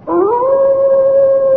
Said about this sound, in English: Some sound they have on the moor, I think. Don't coddle me, Watson. When the people of the moor hear that cry, what do they say it is? They say it's the cry of the hound of the Baskervilles, seeking its prey.